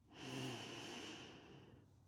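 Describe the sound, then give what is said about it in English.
A deep breath drawn in during a bedtime relaxation exercise: one long, airy inhalation of about two seconds. It swells quickly, then slowly fades, with no talk over it. “let's take one deep breath in and a slow breath out. Another breath in”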